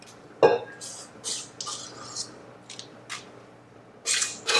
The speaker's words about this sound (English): Just have to make sure the paper stays in place. I'm going to spread it around into this baking pan.